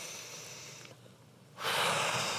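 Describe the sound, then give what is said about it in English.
Deep breathing during a worship gathering: an airy breath fades after about a second, a short lull follows, then a louder, stronger rush of breath. “I want you to take 3 deep breaths like this.”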